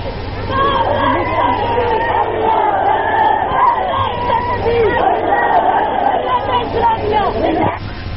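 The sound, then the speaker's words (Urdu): Crowd chanting slogans at a rally: many voices shouting together in a loud, continuous mass, with surging cries and chatter throughout. “اگر آپ کو زور سے پھر نعرہ لگائیں”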